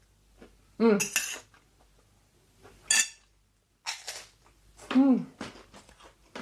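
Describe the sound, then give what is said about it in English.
A fork and spoon clink and scrape on a plate of nasi goreng, a few sharp, bright metallic strikes spaced irregularly between quiet pauses. “So I'm just going to grab a fork and a spoon, because that's how Indonesians would eat their nasi goreng. Spoon in the right hand and fork in the left.”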